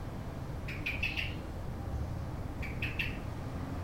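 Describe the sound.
Calls of a mother bird carrying a worm in its beak: two short bursts of high, bright chirps separated by a pause, over a steady low background rumble.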